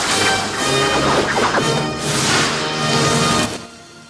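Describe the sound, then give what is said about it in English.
A volley of flaming arrows loosed by archers on a hilltop at night, heard as a few loud, broad whooshing bursts that swell and fade one after another. “They loose the arrows. Flaming letters in Gothic script. Robin Hood, men in tights. A second row of arrows are fired.”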